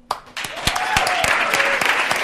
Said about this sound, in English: please join me in welcoming Heather Hardy